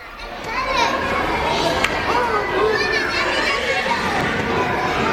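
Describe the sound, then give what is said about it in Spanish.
Children playing in a schoolyard: a dense, continuous mix of many young voices shouting, calling and chattering at once, with bright cries rising above the steady crowd noise throughout. “Le pusieron un sonido de juegos en el patio y mira por dónde salió Alex Currecha.”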